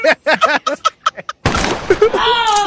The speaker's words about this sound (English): they added a gunshot. Sound like a fucking revolver